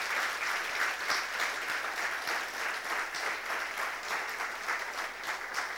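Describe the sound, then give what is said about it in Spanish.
A church audience claps in applause during a worship service: steady, dense clapping from many hands that holds at an even, fairly loud level throughout, with no clear speech over it. “Let us just clap our hands in the presence of the Lord. Vamos a levantar nuestras manos delante de la presencia del Señor. Let's just clap our hands in the presence of the Lord. Otro aplauso bien grande al Señor.”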